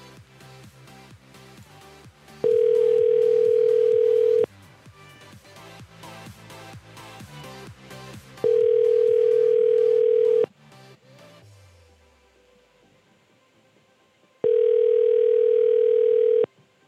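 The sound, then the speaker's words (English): A telephone rings as a call is placed. Three long, steady ringback tones sound, each about two seconds long and evenly spaced, with stretches of music between them. “See if this one rings.”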